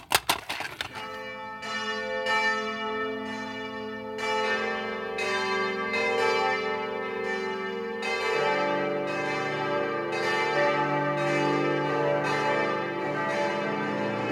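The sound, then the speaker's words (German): Church bells of Stuttgart's Stiftskirche ring for a service. The peal opens with a few sharp strikes, then settles into a steady, overlapping ring of several bells that continues throughout, with a shift in tone partway through. “Die Glocken der Stuttgarter Stiftskirche läuten zu einem ganz besonderen Gottesdienst, dem großen Leipziger Gottesdienst.”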